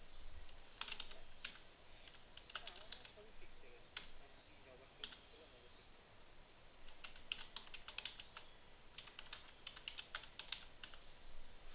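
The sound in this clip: Typing a reply on a computer keyboard: quick runs of light, crisp key clicks come in bursts separated by short pauses, steady and fairly quiet throughout.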